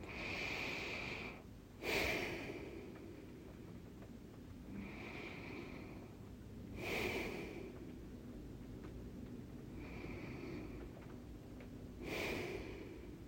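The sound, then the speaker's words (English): Slow, deep human breathing comes in three unhurried cycles, each a soft, airy inhale and exhale, quiet and without any talking. “Take a few long, deep breaths as you set that intention. How about 3 long, deep breaths?”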